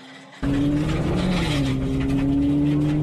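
A rally car's engine bursts in loudly after a brief quieter moment and holds a rough, steady drone, its pitch stepping slightly lower about halfway through.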